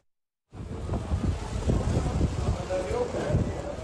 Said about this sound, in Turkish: Açlı bir rüzgar var. Ağaçlar yerinden çıkacak sanki.